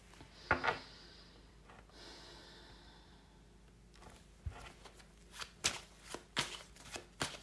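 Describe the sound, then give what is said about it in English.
Tarot cards from a colorful fantasy Tarot of the Divine deck being shuffled and pulled: an early riffling burst, then a quieter stretch, followed by a series of soft, papery flicks and snaps as cards are drawn. “Okay, let's pull more cards now. I feel ready to do so right now.”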